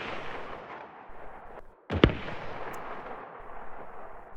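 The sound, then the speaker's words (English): One sharp, loud pistol shot from a Nagant M1895 revolver in the video game Hunt: Showdown, a sudden crack with a short decaying tail that stands out over a steady hissing background noise. “This is the first one. It's a pistol. It's the Nagant M1895. It's a very like one of the weakest pistols in the game.”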